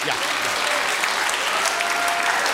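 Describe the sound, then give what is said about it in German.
Sustained applause from a concert audience calling for an encore at the Festival Perspectives 2025, a dense, steady wash of clapping that stays loud and even for the whole stretch. “Vorher müssen Sie natürlich erst Zugabe klatschen, das habe ich ganz vergessen.”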